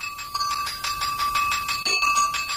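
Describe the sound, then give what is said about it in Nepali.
An electric school bell rings at the end of a class period, a loud, continuous rapid rattling ring with steady bright metallic tones throughout. “आज त period सकिएको पनि थाहै भएन, कति छिटो घन्टी बज्यो।”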